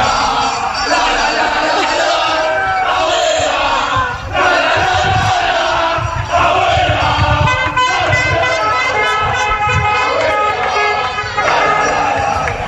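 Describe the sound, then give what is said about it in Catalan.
A crowd of young fans chants a repetitive 'la la la' football chant, voices massed and loud throughout with a steady, continuous din and no pauses. “li van començar a dedicar espontàniament un càntic que diu Abuela La La La i sona així.”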